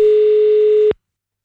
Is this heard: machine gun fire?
no